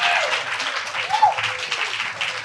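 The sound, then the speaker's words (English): An audience breaks into applause: dense, fairly loud clapping that swells and dips slightly over the few seconds, forming a bright wash of overlapping hand claps. “Applause, real applause.”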